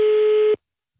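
A single steady telephone line tone, like a busy signal heard while placing a call, holds at one even pitch for about half a second and then cuts off into silence.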